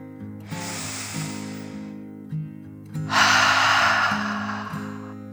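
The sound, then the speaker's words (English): A person takes a slow, deep breath: a long airy inhale, a brief pause, then a longer, louder exhale that gradually fades, over soft sustained background tones. “decided to relax by taking a deep dragon breath in and out.”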